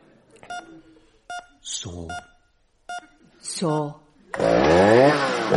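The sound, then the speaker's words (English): A chainsaw revs in a few harsh, whining bursts in a comedy sketch where tree-surgery tools are used in a hospital operation, with repeated short electronic beeps in between and a final long, loud roar. “Saw.”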